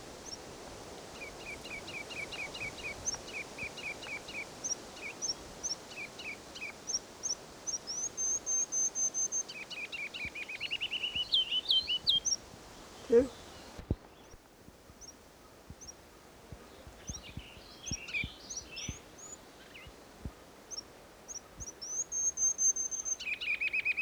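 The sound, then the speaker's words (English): A ruby-crowned kinglet sings faint, high, thin notes repeated in quick series that build into rapid twittering phrases, with several bouts separated by quieter gaps. “Here's a ruby crown kinglet.”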